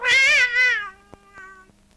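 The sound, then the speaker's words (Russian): A Siamese cat gives one loud, drawn-out meow that dips midway and trails off lower in pitch, followed by a few faint clicks. “Какой кот у вас жуткий?”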